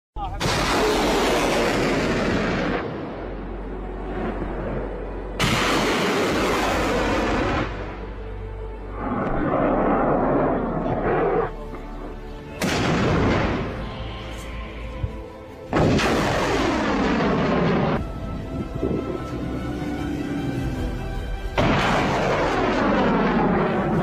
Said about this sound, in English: Now, here they are launching, it looks like MLRS up over at Pakistan as well.